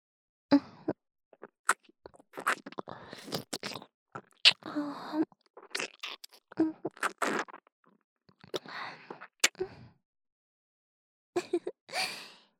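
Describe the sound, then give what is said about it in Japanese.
Wet chewing and eating mouth sounds in a roleplay: many short smacks, clicks and soft breaths in uneven bursts separated by brief silences, with no speech. “まずはこのかわいい、お口から食べてしまいましょうね。”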